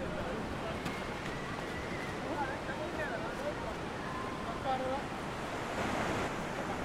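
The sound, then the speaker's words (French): Ocean surf washes steadily onto Yoftongo beach, where large fishing pirogues sit. Constant wave noise mixes with wind buffeting the microphone, and people talk in the background. “nous sommes ici à la plage de Yoftongo”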